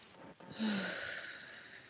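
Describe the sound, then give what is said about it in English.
A deep breath from a man pausing while speaking about grief, a soft, drawn-out breathy rush, quiet and alone. “Gotta take a deep breath.”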